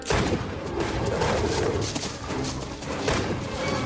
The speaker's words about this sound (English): As the wolfman gives chase, the colonel fires his pistol.